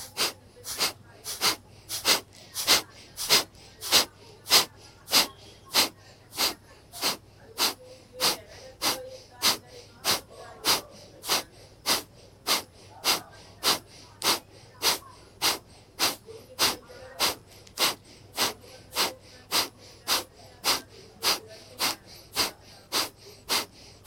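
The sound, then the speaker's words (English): Kapalabhati yoga breathing: many rapid, forceful exhalations through the nose, each a short hissing puff, repeated in a steady, even rhythm at nearly constant loudness. “Exhale completely. Breathe in just a little bit, and then we start Kapalabhati.”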